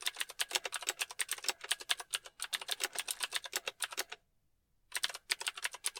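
Rapid typing on a computer keyboard: a long run of many sharp, clattering keystrokes, a brief silent pause near the end, then a few more quick keystrokes. No voices.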